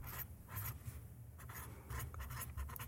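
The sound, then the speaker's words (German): Someone writes busily, the scratchy strokes coming in quick, uneven bursts, faint but steady, with no voices over them. “Ich höre dich fleißig schreiben, ja.”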